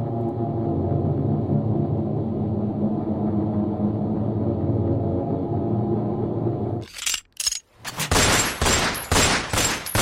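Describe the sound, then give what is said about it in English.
Gunfire from people shooting breaks out as many rapid, loud bursts of shots after several seconds of a sustained low droning sound. “Oh my God, they're shooting at us!”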